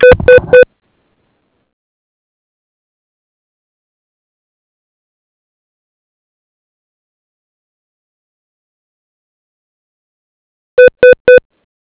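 Telephone beeps while dialing a call, three quick, loud, evenly spaced tones at the start, then a long stretch of silence, then three more identical rapid tones near the end.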